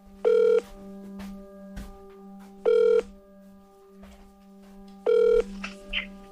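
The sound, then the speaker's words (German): Telephone tones as a call is placed to the American State Department: three identical, evenly spaced electronic tone bursts, each about a third of a second long, sound over a steady low hum with no voices. “Der russische Präsident greift selbst zum Hörer und ruft im amerikanischen Außenministerium an.”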